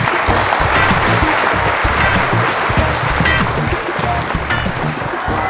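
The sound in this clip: Studio audience applause: a steady wash of clapping from many hands, fairly loud and even throughout, with scattered sharper individual claps standing out.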